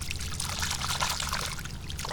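Water pours and trickles over a yellow and orange Srixon golf ball as it is washed off after being fished out of water, a steady hissing splash with no voices.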